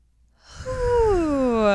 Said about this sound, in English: Let's take a breath. Deep yoga breath.